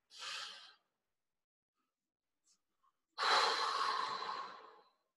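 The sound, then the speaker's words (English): A deep breath: a short breath sound, a pause of near silence, then a longer, louder breath lasting nearly two seconds. No talk. “Let's take a deep breath.”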